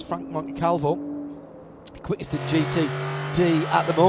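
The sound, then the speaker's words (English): A race car's V8 engine drones steadily as it heads into the carousel corner at Elkhart Lake during a sports car championship practice session, with a commentator talking over it. “That is the sound of his V8 engine that you hear heading into the carousel”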